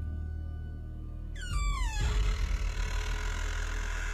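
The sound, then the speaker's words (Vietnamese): Slow, heavy creak of a door swinging open after its latch slides back: a long, high, descending screech that gives way to a rough, rumbling scrape, loud and continuous to the end. “Sau đó cánh cửa chậm rãi mở ra rất chậm, rất nặng nề, rít lên những âm thanh nghe rợn người.”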